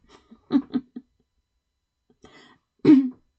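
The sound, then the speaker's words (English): Coughing and throat clearing from a person choking after inhaling the wrong way: a quick run of three short harsh coughs, a pause, a faint rasp, then one louder, rougher cough, with no talk. “I took a breath the wrong way, if that's even possible. But I choked. I coughed.”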